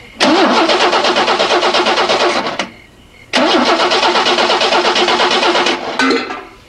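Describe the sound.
A car engine with an empty fuel tank cranks without starting: two long bursts of loud, rapid, rhythmic starter churning, separated by a short pause, with a brief third attempt at the end.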